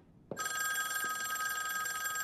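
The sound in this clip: A telephone ringing in the boss's room during a Squid Game scene: a bright, continuous trilling bell that starts abruptly and keeps going to the end, fairly quiet.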